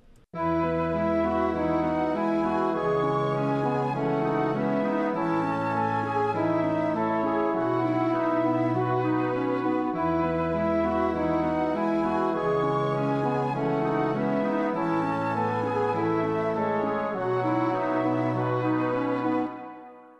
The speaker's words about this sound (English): So if you put all those three melodies together, it all together sounds like this.